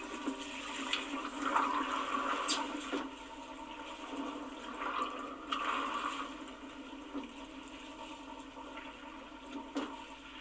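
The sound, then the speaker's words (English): Water swishing and rushing against the hull just outside a ship's cabin porthole, a continuous surging wash that swells louder a few times and then eases, with no voices. “here's the sound of the water swishing around outside my cabin porthole.”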